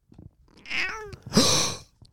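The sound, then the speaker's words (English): A pet cat meowing twice in quick succession. The first call is a tonal, wavering meow. The second follows right after and is louder and more strained. “You got a two for one. Oh my God. Two for one CC meow. Wow, she's got a lot to say today.”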